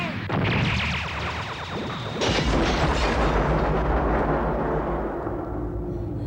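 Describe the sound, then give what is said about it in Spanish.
A magical fire-attack effect from the Sailor Moon anime bursts out as a loud, dense roar. It surges sharply partway through into a sustained, crackling, booming rush that slowly thins near the end. “¡Fuego sagrado! ¡Enciéndete!”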